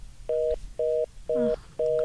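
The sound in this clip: Steady electronic telephone tones for an incoming call to a radio studio: four short, identical mid-pitched beeps at an even spacing, loud and alone.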